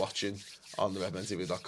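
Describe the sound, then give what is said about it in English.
Hands rub together right against a microphone, producing rough, brushing swishes. The sound is partly masked by someone talking over it. “That's the sound of me rubbing my hands together with Glee.”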